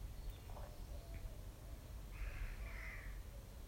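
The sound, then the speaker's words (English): Crows cawing outdoors: a few harsh calls, faint early on and then a stronger, drawn-out caw near the end, over a steady low rumble. “The crows are calling.”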